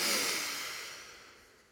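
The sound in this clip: A single deep, slow breath taken during a relaxation breathing exercise for sleep. It is a soft, airy rush that starts fairly strong and fades steadily away over less than two seconds, with no talk.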